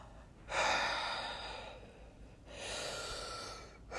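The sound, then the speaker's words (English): Two deep breaths taken one right after the other, each a long airy whoosh lasting over a second, the first slightly louder, with no talk. “Open your heart, open your chest, breathe through your stomach, take two deep breaths.”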